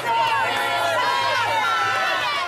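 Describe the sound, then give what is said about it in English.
Basketball fans cheering in an arena in Sacramento before a tournament doubleheader: a loud, continuous crowd roar with many voices shouting and calling over one another without a break. “The fans are ready for the big dance. You can hear it in their cheers”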